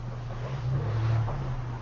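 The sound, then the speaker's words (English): A car driving up makes a low, droning engine hum that swells slightly in the middle and then eases back, faint and steady with a soft noisy hiss over it. “We can be certain that a car just drove up, but maybe not.”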